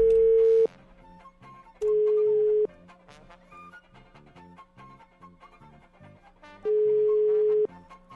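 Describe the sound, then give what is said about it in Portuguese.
Ringback tone as a phone call is placed, three long, steady, mid-pitched beeps separated by long gaps, loud against a quieter background. “Pera aí, vou ligar pro Romildo.”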